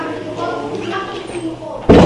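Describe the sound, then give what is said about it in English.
A door is closed with a sharp, loud thud near the end, after a stretch of low voices and murmuring. “Let's close the door if you don't mind.”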